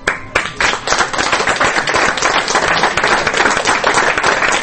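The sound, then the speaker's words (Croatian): Audience applause at the Media Center in Belgrade after a one-hour documentary screening: a few separate claps open, then loud, dense clapping that continues evenly. “Ovim aplauzom publika u Medija centru u Beogradu otpratila je posljednje kadrove jednočasovnog dokumentarca”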